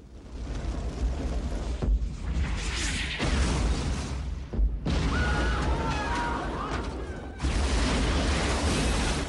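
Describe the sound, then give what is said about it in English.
Heavy, rumbling explosions tear through the outskirts of a village in an audio-drama battle scene as rockets are fired from an armored crawler. A continuous roar is punctuated by several abrupt new blasts, each bringing a fresh surge of booming noise. “Explosions rock the outskirts of the village.”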